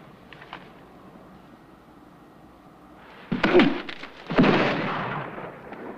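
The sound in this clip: Two rifle shots fired from the rocks in a Western film scene ring out after a quiet stretch, each a heavy booming crack trailing into a rumbling decay.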